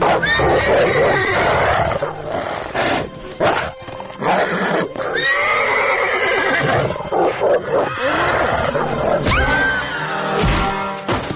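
A horse whinnies and rears as a wolf attacks it in a forest. Loud, repeated neighs mix with growling, roaring animal snarls in a dense, continuous struggle.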